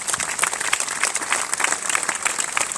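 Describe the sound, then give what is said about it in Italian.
Audience applause for sponsors at an annual August event in an Italian village: dense, loud, even clapping that holds steady throughout without a break. “inviterei il pubblico a fare un applauso a questi sostenitori”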